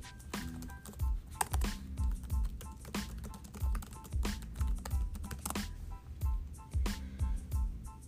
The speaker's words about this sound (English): I'm tempted to look it up on Google. Let's see.